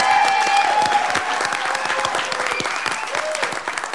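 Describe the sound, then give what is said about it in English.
Applause from a Libertarian Party convention audience for the event's executive producer, dense and loud clapping that runs steadily without a break. “So quick, give it up for Dawn Youngs.”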